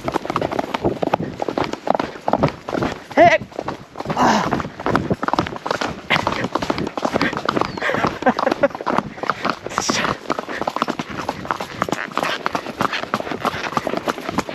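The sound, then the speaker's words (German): A horse trots and then gallops uphill on a mountain trail in Colombia's Andes, many rapid, loud hoofbeats in a quick, driving rhythm that carries on throughout. “Sobald ich Mariposas Flanken berühre, geht das Tier sofort in Trab und hat aus unerfindlichen Gründen sogar Freude daran, bergauf zu galoppieren.”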